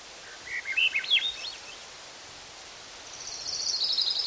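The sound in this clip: A thrush sings short, varied whistled phrases that rise and fall. Later comes a sustained high trill, fairly faint over a steady rustling hiss.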